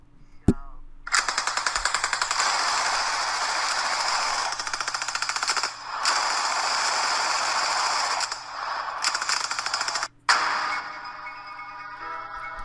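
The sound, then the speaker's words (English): Machine gun fire as a sound effect: dense, rapid bursts that run almost without a break for about ten seconds, with a few brief pauses and a sharp cut near the end. “What's that at the end? The music? Machine gun fire, and then it goes right into music. Yeah, that's the background music for Rapid Fire now.”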